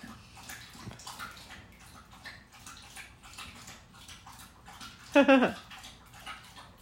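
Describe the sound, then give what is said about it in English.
A dog drinks water loudly, with a steady run of quick, wet lapping and sloshing throughout and a brief, sharper burst near the end. “That's very loud drinking of water there, dog. I'm sure you can hear it in the background.”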